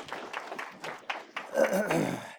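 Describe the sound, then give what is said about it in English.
Applause for program graduates at an audienceal gathering begins as a few separate, evenly spaced claps and swells into denser clapping. “Let's give them a hand.”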